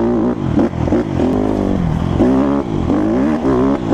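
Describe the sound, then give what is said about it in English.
Engine of a Honda CRF150R motocross bike revving, a steady buzzing drone whose pitch climbs and dips several times as the throttle is worked. It is loud and continuous throughout, with no voices. “after riding a uh, 150R motocross bike in the woods, it's not for the faint of heart.”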